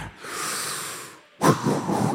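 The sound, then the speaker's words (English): A church audience takes a deep breath together, heard as a soft, broad breathy hiss that swells and fades, then a louder, rougher burst of breath. “I need everybody just take a deep breath.”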